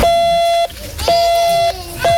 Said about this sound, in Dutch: je moest gewoon met dat apparaatje zo piep, piep doen en dan kon er vanzelf een geluid uit en dan kon je je eigen naam doen.